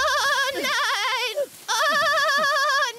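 A lamb bleats in two long, wavering calls separated by a brief gap, fairly high and loud, each with a strong quavering vibrato.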